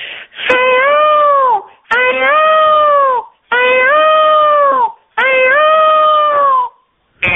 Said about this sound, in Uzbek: Va tovus degan qush bo'ladi, rang barang patlardan iborat. Juda go'zal, juda go'zal qush, aha. Ham chiroyli qush, shu tovusini chiqaradigan ovoz shunday bo'lar ekan.